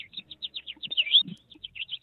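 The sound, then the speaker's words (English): A person imitates an American goldfinch call with many quick, high, chirping notes in a rapid series. A slightly longer note sits in the middle, and the sequence is faint overall. “So we usually think of goldfinch as a great feeder bird. American goldfinch has this kind of like,”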